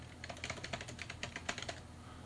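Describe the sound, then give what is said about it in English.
Fingers type a message on a computer keyboard, with many quick, faint key clicks in an uneven rhythm and no voices. “Let me just type one message here.”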